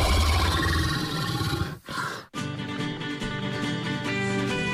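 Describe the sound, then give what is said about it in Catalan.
A deep, rough roar made as a minotaur sound effect: a loud, growling, bestial roar that runs continuously with two brief breaks partway through. “Per cert, voleu saber com sonava un Minotaure? Ah, és veritat, ho he buscat i sona així.”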